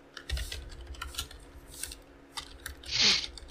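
Dice rolled for a tabletop roleplaying game's shooting check, heard as a few faint, sharp plastic clicks followed by a louder brief rattle near the end.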